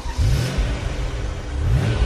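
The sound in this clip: A car engine revs as the car pulls away. The low, rumbling hum surges upward in pitch twice, with a steady whirring drone between the two surges.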